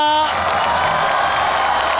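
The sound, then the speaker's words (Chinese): Audience applause at a Chinese New Year greeting show with a crosstalk comedian and a singer: a brief, dense burst of clapping, steady and loud for about two seconds. “我觉得好像掌声比我那个要热烈一点，是不是？”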